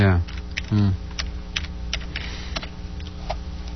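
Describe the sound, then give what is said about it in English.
Typing on a computer keyboard with one hand: irregular, light clicking keystrokes pattering along steadily, with a couple of short voiced sounds near the start. “you sound like you're used to typing with one hand there.”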